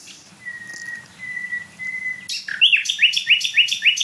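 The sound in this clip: A nightingale sings: a steady, high, pure whistled note held in repeated stretches, then a fast, loud series of rising chirps and trills with a faint low hum of background noise beneath.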